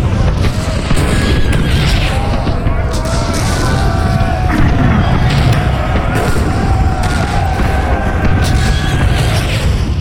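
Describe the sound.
Cannon shots in a battle: a dense, loud roar packed with many repeated booms and blasts, running without a break from start to end.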